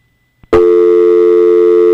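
A steady telephone line tone during a radio call-in rings out loud and unbroken after a brief click, holding one even pitch with no voices over it.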